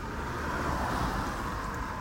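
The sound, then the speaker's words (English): Steady road and engine rumble of a car driving through the city of Boston, an even, broad wash of noise that holds at a constant level throughout with no distinct passing events. “I'm just driving through one last time, man.”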